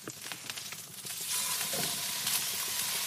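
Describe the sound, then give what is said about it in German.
Pieces of meat searing on a hot plate, a dense, hissing sizzle that swells noticeably louder a little over a second in and then holds steady and strong to the end, with no voices. “Echt so ganz, ganz schnell einmal angebraten, ne? Ganz, ganz schnell. Je nachdem, wie heiß die Platte ist, nicht mal eine Minute. Genau, flank einfach rein, die Teile.”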